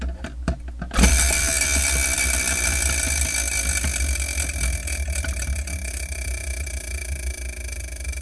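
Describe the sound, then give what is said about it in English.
A spinning prize wheel used to choose a manga for review clicks a few times, then breaks into a steady, dense ratcheting clatter that runs for several seconds and eases only slightly, with no voices. “let me spin the Wheel of Manga and see what I'm reviewing for episode 42”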